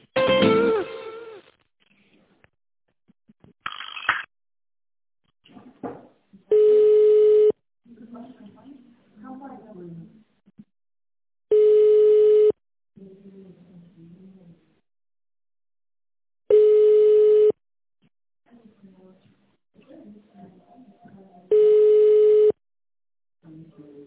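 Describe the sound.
Ringing tones on a telephone line while a call is transferred to another employee: four identical steady tones, each about a second long, spaced roughly five seconds apart. Faint murmuring fills the gaps, and a louder burst of sound comes at the start.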